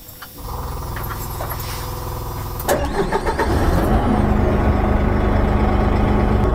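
A car engine starts with a sharp catch and then settles into a louder, steady running rumble, with a lower mechanical drone already present beforehand.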